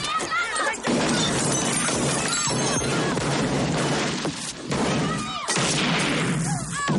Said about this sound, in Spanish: Todos se disparan entre sí